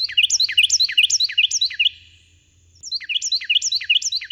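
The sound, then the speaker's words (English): Shrill Carolina wrens sing in rapid, repeated bright chirping phrases. The song is loud and continuous, breaks off into a short pause, then resumes. “those shrill Carolina wrens singing their hearts out”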